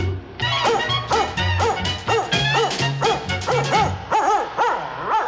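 A German Shepherd dog barks in a rapid, steady run of many sharp, loud barks, each with a rough tonal edge, barely pausing between them.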